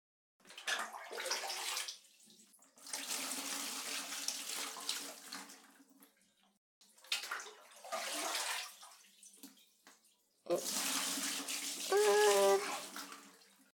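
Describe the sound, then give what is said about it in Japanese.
Water runs from a tap or shower while someone's hair is rinsed, flowing in several long bursts with brief pauses. A voice is briefly heard near the end. “流していいよ。”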